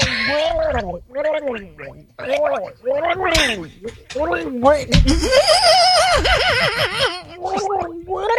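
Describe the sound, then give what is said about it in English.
A person gargles coffee to imitate shark mating noises, producing many loud, warbling, bubbling gurgles in uneven bursts with brief pauses. The wobbling pitch rises and falls throughout, and a vocal imitation of an animal call is intended. “Clearly gargling coffee. Yes, those were authentic.”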